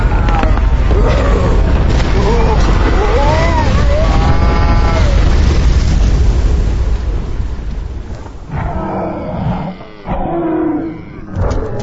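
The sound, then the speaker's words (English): A deep, heavy earthquake rumble roars loudly for about eight seconds with voices shouting over it, then drops away and leaves quieter speech. “Earthquake!”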